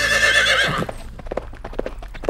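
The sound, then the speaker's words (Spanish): A horse arrives with a loud whinny, then its hooves break into a steady clip-clop of distinct, evenly paced hoofbeats. “¡Yepa, yepa, yepa! ¡Ya llegué! ¡En caballo llego más rápido!”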